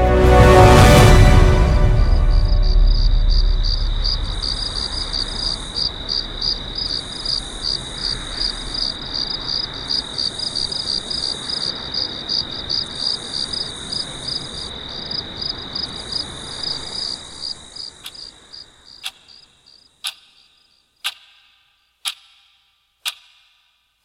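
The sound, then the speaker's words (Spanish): Crickets chirp in a steady, high-pitched pulsing trill over a low rumbling wash that fades out after about 18 seconds, leaving the chirps alone, followed by a few sharp, isolated ticks near the end. “y con el canto de los grillos, prosiguieron su viaje.”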